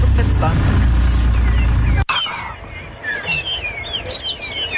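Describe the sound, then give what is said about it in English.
Birds chirp on a safari drive, preceded by a loud low vehicle rumble that cuts off abruptly; afterwards several bright, quick chirps and trills ring out over a quieter background. “Oh, the birdies.”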